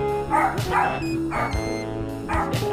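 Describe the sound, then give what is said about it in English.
Dog barks ring out in a few sharp bursts over a steady tonal backdrop, the barks fairly loud and irregularly spaced through the short stretch. “Yeah, hear that dog bark.”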